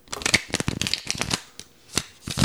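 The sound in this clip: Tarot cards riffle shuffled close to a microphone: crisp, papery flutters and snaps in a few quick bursts, with brief pauses between them and no talk.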